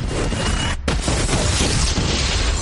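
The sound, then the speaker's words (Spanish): Windows exploding in a burning hallway make a loud, dense roar of crashing and booming. It cuts out for a split second, then surges back at full strength and keeps going without easing. “Incendia un pasillo. Las ventanas explotan.”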